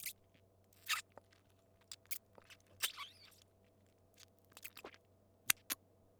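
Crunchy food is chewed, producing many short, crisp crunches and bites in an irregular rhythm, faint overall, over a low steady hum with no talking.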